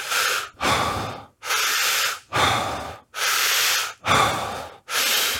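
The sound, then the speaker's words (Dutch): Deep breaths drawn and pushed out through the mouth, seven loud, airy rushes in a steady, even rhythm with brief pauses between them and no talking. “wat we dan gaan doen is een paar keer diep door de mond ademen”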